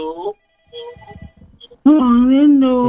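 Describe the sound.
A telephone rings on a call-in line to an evening radio request show: a brief, faint ringing burst that sits between a short stretch of voice before it and louder talk after it.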